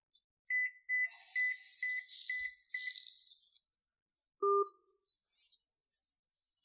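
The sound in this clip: A phone ringtone plays a quick repeated chiming pattern and then stops. A short two-tone beep follows as the call is cut off, then near silence.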